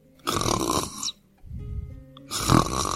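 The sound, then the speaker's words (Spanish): Snoring from a little sheep in a children's story: three rough, rasping snores in a row, with brief pauses between them, the last one the loudest. “La ovejita roncaba dulcemente bajo su oreja, un ronquido tras otro.”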